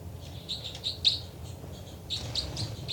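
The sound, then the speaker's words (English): Birds chittering in a played recording: many quick, high chirps and tweets in uneven bursts, louder spells near the start and the end, over a steady low background rumble. “So, it's a recording of birds. 306, chitter.”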